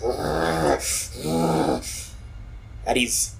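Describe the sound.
A voice imitates the bestial growling of a man transforming into a beast: a few rough, low, harmonic growls separated by hissing breaths.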